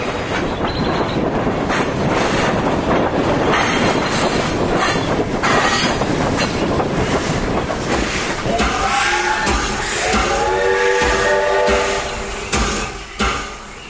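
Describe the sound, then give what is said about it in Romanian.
A locomotive-hauled train running on rails: a loud, steady rumble and rattle of wheels, with high squealing tones emerging in the later part before the sound drops away at the end. “Ai, parte de o locomotivă frumoasă.”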